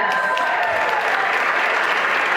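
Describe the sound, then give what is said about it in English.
Applause from a crowd at a fundraiser event, a thick, continuous roar of clapping held at a loud, steady level from start to finish. “Applause, laughter, music, and the occasional barking filled the Ladies Off the Green fundraiser on Sunday.”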